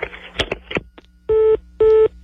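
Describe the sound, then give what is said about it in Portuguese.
Two steady electronic telephone ring tones follow a few brief vocal sounds. Each ring is a buzzy, harmonic tone lasting about a quarter second, with a short gap between them. “Nossa, o telefone, rapaz.”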